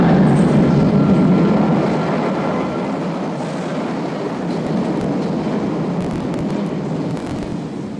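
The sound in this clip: An S-Bahn commuter train pulls into a station beneath a bridge in Berlin. A loud, broad rumble with hiss eases slightly after the first couple of seconds, then continues steadily, with faint metallic ticks and clicks over the roar.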